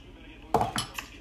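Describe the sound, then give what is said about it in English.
A cereal bowl heaped with sugar-coated cereal is set down on a table with three quick clinks, the first loudest and the next two lighter, in an otherwise quiet setting. “The bowl hitting the table has the sugar dancing in the straw, falling in between pieces, and the whole bowl moves.”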